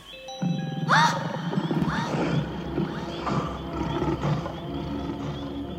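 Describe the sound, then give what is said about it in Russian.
An injured bear roars: a loud, harsh cry bursts in about one second in, followed by further rough, wavering calls over a steady low rumble that lasts to the end. “Что это было? Не знаю. Скорее всего, медведь на что-то напоролся и поранился.”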